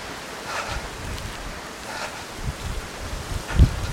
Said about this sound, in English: now it's really windy, but it's from behind.